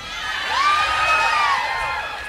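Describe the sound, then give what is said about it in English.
A crowd screams together in a group activity, many voices joining in one loud, sustained shout that swells and then eases, with a few higher whoops riding over it. “we're gonna do a little progressive screaming together”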